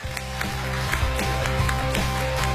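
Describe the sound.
Applause welcomes a speaker, a professor and public-speaking champion, onto a stage: many crisp claps build and continue over steady tonal music.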